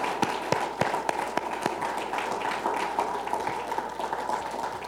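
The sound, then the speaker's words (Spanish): A church audience applauding, with many irregular claps and taps forming a fairly faint, continuous patter with a few sharper claps standing out. “Démosle un fuerte aplauso al Espíritu Santo, al Padre, al Hijo.”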